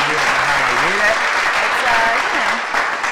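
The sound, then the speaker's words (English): Hands clapping at a comedy show: a dense, steady patter of applause that fills the whole clip, with a voice talking over it. “I'm going to clap myself.”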